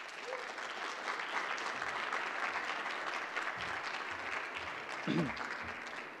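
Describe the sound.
An audience applauds to welcome a speaker, a steady wash of clapping that holds at a moderate level, with a brief voice rising through it near the end.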